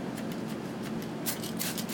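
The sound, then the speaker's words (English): A water spray bottle mists stale bread in quick hissing spritzes, many short bursts that come thicker and louder toward the end. “I know you all have one of these either for your flowers or for your laundry filled with water. What you're going to do is mist your bread”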